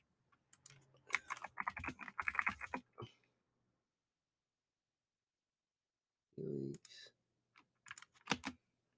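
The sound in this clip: Bursts of typing on a computer keyboard while looking something up: a quick flurry of key clicks, a pause, a brief murmur of voice, then a few more clicks, all fairly quiet.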